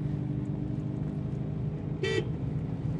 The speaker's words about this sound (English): Mondo's bird-chasing techniques of getting rid of the birds off the vines. And he's tooting the horn and they're flying away.